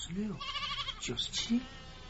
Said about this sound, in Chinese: 阿山急忙招呼着小羊准备回家